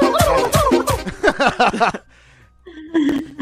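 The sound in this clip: A turkey gobbles in a loud, rapid, warbling burst of many short throaty notes. After a brief pause, a shorter gobble follows at the end.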